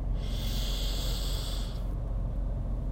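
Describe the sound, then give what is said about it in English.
A single long, deep breath drawn in through the nose, a steady hissing rush of air that holds for about a second and a half and then stops, heard on its own with no talking. “Deep breath in through your nose.”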